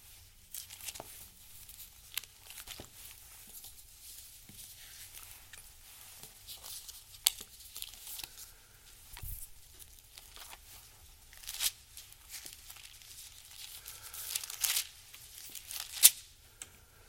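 Bible pages are turned with faint, papery rustles and soft crinkly flicks scattered across the stretch. They are irregular and quiet, with a few sharper crisp turns near the end and no talking.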